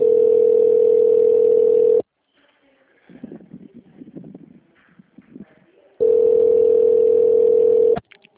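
A steady telephone line tone hums while a call connects to a company extension. Two long, even tones are split by a quieter stretch of faint, muffled murmuring, and the second tone cuts off sharply.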